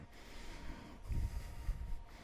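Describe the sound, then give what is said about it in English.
Ujjayi breathing through an open throat with the lips sealed produces a faint, hissing, ocean-like rush of air that swells in a few slow surges. “Seal your lips. Open up the throat and generate the sound of ujjayi breath.”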